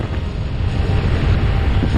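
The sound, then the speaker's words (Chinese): Wind rising over an open snowfield as a blizzard builds, a loud, steady low roar with rough buffeting against the microphone throughout. “雪原上起风了。天地的界限开始模糊，这代表白毛风要来”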